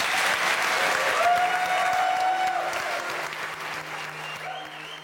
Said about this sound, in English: I'd love you to give a big round of applause to our wonderful panel.